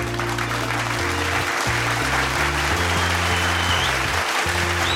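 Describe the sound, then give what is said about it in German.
An audience gives a warm welcoming applause for a guest at an ICF Mittelland event, a steady, continuous wash of clapping that holds an even loudness for the whole stretch. “Lass uns dem Bobby einen warmen Willkommensapplaus geben, hier im ICF Mittelnacht.”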